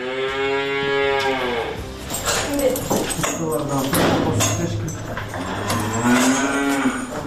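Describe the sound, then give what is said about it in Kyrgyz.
Cows mooing on a family dairy farm in Sretenka village, Chüy region, with long, low, drawn-out moos at the start and again near the end. People talk in between, and a dog may bark faintly. “Так, вот эти у нас коровы, Анжела и Туча, они у нас очень с характером, такие, не принимают чужих людей.”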